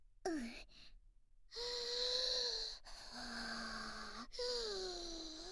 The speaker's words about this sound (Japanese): まずは深呼吸ね。